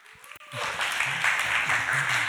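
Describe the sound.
Audience applause welcoming Pastor John Adams at a church gathering. A voice is heard briefly at the start, then steady clapping swells in and continues evenly to the end.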